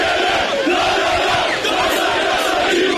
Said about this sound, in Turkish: Galatasaray'ın şampiyonluğu Denizli'de coşkuyla kutlandı. Sarı kırmızıların adresi Denizli'deki Delikli Çınar Meydanı'ydı.